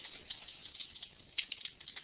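Soft typing on a computer keyboard during wiki page editing: faint, irregular key clicks scattered over a low hiss, with a small cluster of slightly sharper taps toward the end and no talk.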